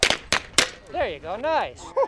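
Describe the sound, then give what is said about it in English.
Three sharp, quick pops of a gun firing wax bullets at a target, followed by brief gliding vocal sounds. “The light turned red and I heard a popping sound.”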